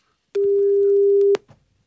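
A telephone ringback tone on an unanswered call to a garage owner's personal mobile: one long, level, mid-pitched tone lasting about a second, followed by faint low noise.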